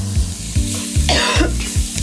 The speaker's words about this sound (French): Je tousse à cause des épices et du piment.